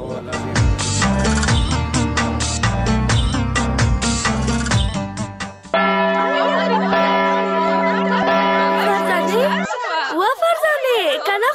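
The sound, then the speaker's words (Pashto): A school recess bell sounds as a steady, tonal ring held for about four seconds, following a stretch of busy, dense sound and followed by quieter warbling noises. “دا مې ځکه وویل چې د تفریح زنګ دې وانورېده.”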